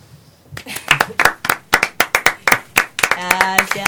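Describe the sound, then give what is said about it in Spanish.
The final round of audience applause at the end of a night's show: a run of sharp, separate claps at a quick, fairly even rhythm, with a voice starting to speak over the clapping near the end. “El último aplauso de la noche para Carlos Saúlo.”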